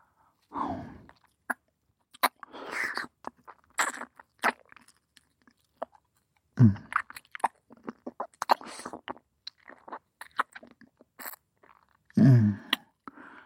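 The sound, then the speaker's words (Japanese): Wet tongue licking and rubbing mouth sounds in close ASMR style: a few longer slurping swells with many small moist clicks and smacks scattered between them, with no speech. “舌先でこすられると、頭の中で音が響くからたまらないでしょ。”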